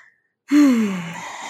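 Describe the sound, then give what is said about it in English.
A deep grounding breath taken as a calming exercise starts abruptly after silence with a loud, breathy, partly voiced sound whose tone falls, then trails off gradually. “Taking my grounding breath. Feel free to do one with me.”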